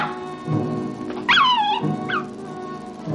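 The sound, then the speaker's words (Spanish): A dog at a camp yelps after a stone is thrown at it, giving a sharp, high cry that falls in pitch. A shorter second yelp follows moments later. “Tira una piedra al perro.”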